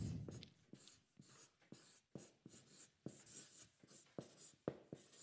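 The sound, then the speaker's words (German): Pen scratching across paper while drawing, a long run of short, crisp strokes in an uneven rhythm with brief pauses between them, fairly faint and with no voices. “Ich habe überlegt, wie könnte man das jetzt zeichnen? Und ich dachte irgendwie so.”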